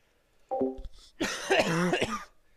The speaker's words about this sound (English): I just don't want to cough my lungs out